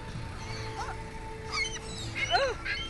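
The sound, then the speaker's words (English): A few faint duck quacks from ducks looking for French fries, scattered over steady background noise with other chirping calls mixed in. “The duck right there. Look, it's a duck. And look, there's another duck behind them looking for the French fries.”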